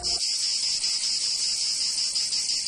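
Cicadas singing in summer, a high-pitched, unbroken buzzing drone that holds steady and loud throughout, with nothing else heard.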